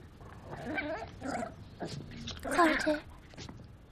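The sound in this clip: A dog whimpers in a few faint, high, wavering whines with pauses between them, over low background noise.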